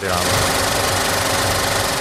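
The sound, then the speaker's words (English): Loud, continuous mechanical whir and rapid clatter of a 70mm film projector running a film print, holding an even, dense rattle with no pauses. “How long the 70mm film print will continue spinning through the projector depends on audience demand.”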